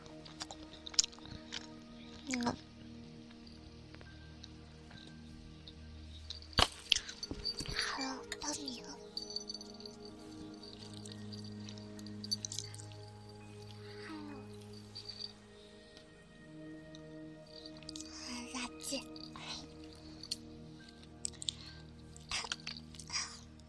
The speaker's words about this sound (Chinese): 啊，好牙口，好，就快吃掉它了。